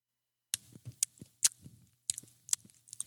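Chewing during a taste test of food coated in a sweet, heavily liquid-smoke sauce. Many irregular crunchy, wet bites and mouth sounds come one after another, moderately loud, with no talking.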